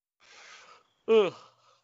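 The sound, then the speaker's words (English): A human yawn: a soft breathy exhale, then a short, loud voiced groan, then a faint trailing breath, with silence between. “that's like a triple yawn there. Sorry.”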